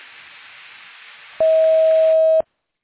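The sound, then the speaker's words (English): A voicemail recording tone sounds: soft line hiss gives way to a single loud, steady electronic beep lasting about a second, then silence. “Record your message at the tone. Press any key or stop talking to end the recording.”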